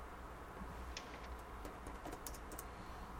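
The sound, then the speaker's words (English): Typing on a computer keyboard: faint, irregular keystrokes tap lightly over soft background hiss, with only a few distinct clicks. “Whoops, if I could type.”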